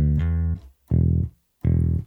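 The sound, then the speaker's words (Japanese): Computer-synthesised tone imitating a bass guitar: three deep, sustained notes separated by short silences, the first held longest, each stopping abruptly, with no talk. “まあそのパソコン を使ってね、その ベースの音に似せて作られた音はこんな音なんですよ。”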